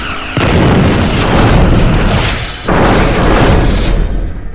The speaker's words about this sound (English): Did you just fire phasers at us? I just saved our fuel tanks, ma'am.